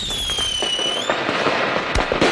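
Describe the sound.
Fireworks go off: a high whistle slides down in pitch and levels out, followed by many sharp pops and crackling bursts that grow louder toward the end.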